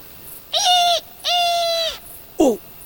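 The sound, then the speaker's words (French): Owl calls in a moonlit forest and countryside at night: two sustained tonal hoots, then a short call that falls in pitch, clear and alone. “battements d'ailes, c'est forcément une chouette effraie.”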